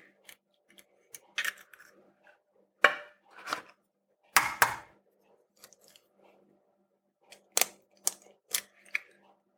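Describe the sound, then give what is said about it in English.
Eggs are cracked into the center of a flour well: many sharp, faint taps and cracks arrive in irregular bursts, separated by quiet gaps, with no talking. “Ready to crack some eggs. And I'm just going to crack those right into the center.”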